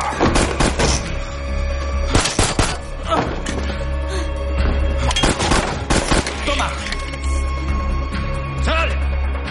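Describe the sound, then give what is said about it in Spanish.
Gunfire erupts in a shootout inside a room, with loud, sharp shots in irregular bursts and clusters over a steady low rumble throughout. “Varios hombres entran en la habitación y comienza un tiroteo.”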